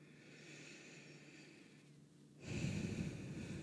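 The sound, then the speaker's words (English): A deep inhale during a guided breathing exercise. Faint breath noise runs through the first part, then swells into a louder, rushing intake for the final second. “Just take a nice deep inhale”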